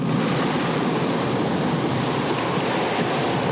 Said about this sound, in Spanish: Lo bajan del barco, el agua les cubre por la cintura.